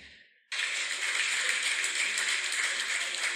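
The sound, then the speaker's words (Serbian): Applause bursts in abruptly after a brief quiet moment, then holds as a dense, even wash of many hands clapping, loud and unbroken until the end. “i veliki aplauz na zadnjim smjestima”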